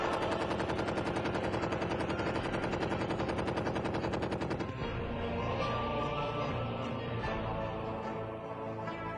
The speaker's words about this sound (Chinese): 当不知虚实的日军沿着苏州河边搜索时，王文川手中的枪响了。